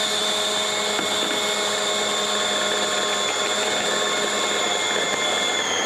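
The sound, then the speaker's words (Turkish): An electric mixer whisks dough to a manti-like texture after cold water is added, giving a steady, high, continuous whir with a tonal hum throughout. “ve çırpmaya devam ediyoruz. Mantı hamuru gibi bir hamur elde edeceğiz.”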